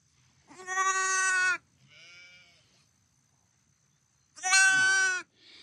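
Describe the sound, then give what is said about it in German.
Injured lamb bleating after an attack, missing an eye: two loud, long, quavering high-pitched bleats separated by a pause, with a fainter shorter bleat between them and another starting at the end. “An dieser Stelle soll ein weiteres Lamm angegriffen worden sein. Es lebt noch. Ihm fehlt ein Auge.”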